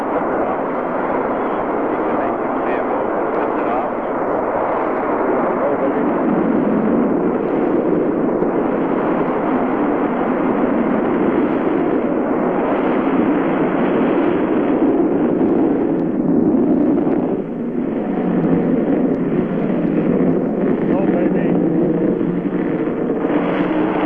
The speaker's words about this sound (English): 5, 4, 3, 2, 1, 0. Ignition. Lift off the MA-6 vehicle.